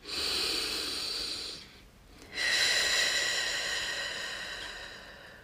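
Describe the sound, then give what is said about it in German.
Slow, deep breathing during a calm meditation: a long airy breath fades out, a short pause follows, then another long, hissing breath rises and gradually tapers, steady and unhurried with no talk. “Und ich atme.”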